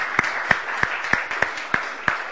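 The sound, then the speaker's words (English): Hand claps from a church audience giving a round of applause: seven sharp, evenly spaced claps in a steady rhythm over a faint background wash. “Would you give these folks a round of applause for all of that?”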